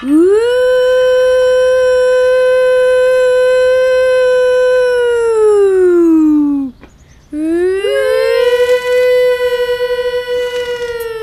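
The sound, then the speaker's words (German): A loud civil-defence siren on a village school or town hall wails on a steady, harmonic-rich tone, then drops in pitch, breaks off briefly, and winds back up to hold its loud howl again. “In manchen Dörfern gibt es noch eine Sirene auf Schulen oder Rathäusern. Die macht ordentlich Lärm. Ich weiß, wie sich die Sirene anhört.”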